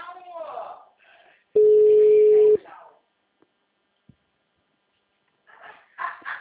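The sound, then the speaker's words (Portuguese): An unanswered phone call gives a single steady, mid-pitched tone lasting about a second, with people talking before it and again afterward. “Fazer ligação. Ela não atende.”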